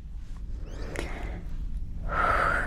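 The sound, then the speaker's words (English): A breath taken and let go, moment of calm: after a quiet stretch with faint rustles, one short, airy breath swells near the end, clear and fairly loud. “I breathe and I let it go.”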